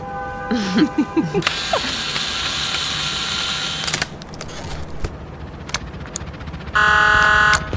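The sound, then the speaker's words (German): Ratcheting clicks of a screwdriver at work on a maintenance panel, a run of dry mechanical ticks and scrapes, ending in a loud, steady electronic buzzing tone. “Ich muss an das Wartungspanel ran. Hast du einen Schraubenzieher? Hier.”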